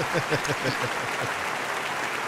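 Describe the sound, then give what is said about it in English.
Applause for a young intern, a steady wash of many hands clapping at moderate loudness, even and unbroken throughout. “give Dom the intern a very, very big round of applause”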